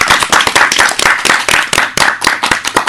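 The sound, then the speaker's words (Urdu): Loud applause from an audience at a program, many dense, overlapping hand claps running steadily throughout with no voices. “أمۍ سٕنٛدِ خٲطرٕ زوردار ژرپو”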